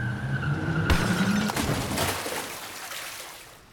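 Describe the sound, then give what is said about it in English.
A car skids with a tonal tire squeal, then crashes through a bridge railing in a loud burst of impact and shattering debris that trails off over a few seconds, with no voices. “out of nowhere, the car skidded out and crashed through the railing”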